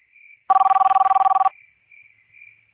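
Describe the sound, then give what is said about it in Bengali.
A telephone rings late at night in one burst of about a second, a rapid electronic trill with fast, even pulses, between faint, thin tones before and after. “অন্য ফোনের ring বাজছে?”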